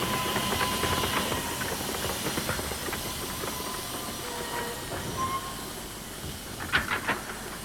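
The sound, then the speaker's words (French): A TGV high-speed train from Paris, bound for Brest, pulls into a station platform with a hissing, rumbling roll. Thin brake squeals and rapid clacking run through it, and a few sharper metallic bursts come near the end. “le TGV 8713 en provenance de Paris et à destination de Brest va entrer en gare.”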